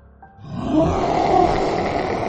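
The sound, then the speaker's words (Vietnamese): A wounded mythical beast lets out a roar of pain that swells quickly into a loud, rough, sustained bellow and stays at full strength to the end. “Một tiếng gầm rú cực kỳ đau đớn vang lên từ một góc nào đó”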